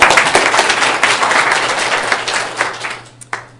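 Audience applause for the back row of a workshop group after they stand and smile. Steady, dense clapping tapers off near the end, with a single last clap.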